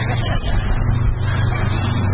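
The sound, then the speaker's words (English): A Beechcraft airplane flying overhead makes a steady, loud low rumbling drone with a broad noisy hiss above it, holding nearly constant across the short stretch. “That's a Beechcraft. He's coming in. He's going to cross right over there.”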